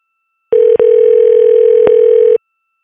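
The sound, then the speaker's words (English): Telephone dial tone: a loud, steady, mid-pitched hum that starts abruptly, breaks off once very briefly near its start, carries a single faint click midway, and stops after about two seconds, with silence before and after. “We got some more numbers to dial tonight on Pran Funkles.”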